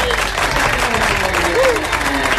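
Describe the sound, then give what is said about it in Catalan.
Applause from a studio audience welcoming a guest, an even, dense patter of clapping that lasts about two and a half seconds. “Un aplaudiment.”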